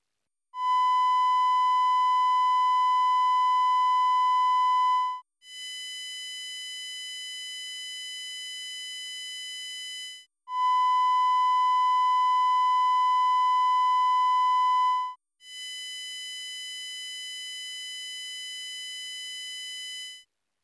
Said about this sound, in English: The 1000 Hz fundamental of the triangular wave is a simple sine wave. Now let's use a different filter, which rejects the fundamental, so we can only hear the harmonics.